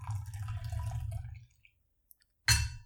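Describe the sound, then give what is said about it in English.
Tea is poured into a cup, giving a steady low trickle for about a second and a half. A quiet pause follows, then a brief louder burst near the end. “I have my tea right here with me. I'm just going to pour a little bit more of it.”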